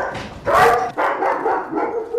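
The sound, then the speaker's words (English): German Shepherd dogs bark in a few loud, rough bursts. The strongest comes early, and shorter barks follow at uneven intervals, with brief quieter gaps between them. “The dogs? Yeah. Yeah, German Shepherds, they're beautiful. They really are. They're beautiful dogs.”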